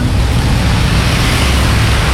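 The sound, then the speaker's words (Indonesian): Road traffic in a jam on the Arjosari flyover: a loud, continuous low rumble and broad wash of engine noise with no distinct events and no voices. “Di flyover Arjosari juga masih macet, belum tahu ujungnya sampai mana ini. Macet, macet, macet.”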